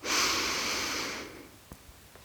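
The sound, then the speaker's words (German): A single deep breath in, taken during a guided relaxation breathing exercise: a loud, airy rush lasting about a second that gradually fades, followed by a few faint clicks. “Und dann nimmst du noch einmal den tiefsten Atemzug des Tages”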